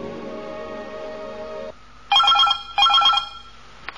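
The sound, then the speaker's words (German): A telephone rings with an incoming call: two short, bright electronic bell bursts in quick succession, loud and alone with no talk. “Der Anruf kam am Abend. 8:05.”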